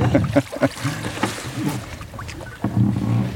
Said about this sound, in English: The creak of the oars.